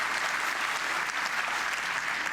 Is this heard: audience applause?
yes